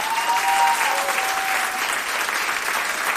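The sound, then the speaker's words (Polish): Loud, sustained audience applause for the backing singers at a concert, a dense and even crowd clapping that holds steady throughout. “Wielkie brawa.”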